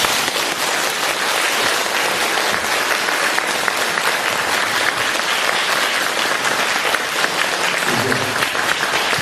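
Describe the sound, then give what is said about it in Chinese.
Applause from a small audience after a talk, dense and steady hand clapping that stays loud and continuous throughout with no break. “台长特别开心，你看看呢，人不多，但是我听这个掌声就是几千人的掌声。”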